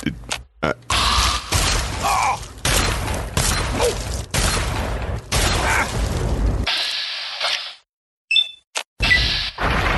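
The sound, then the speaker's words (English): Combat shotgun fire in a video game: a dense run of loud, sharp blasts with mechanical clacks and thuds, broken by short gaps, then a near-silent pause followed by a few brief shots. “the good thing about this combat shotgun is one VATS to the head will take out the glow.”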